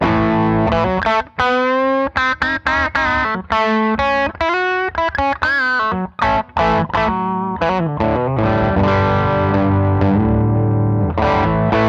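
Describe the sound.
Electric guitar driven through a Klon-style overdrive pedal with gain at 75% and tone at noon: loud, gritty chords and quick single notes ring almost without pause, with a tight, sizzling edge.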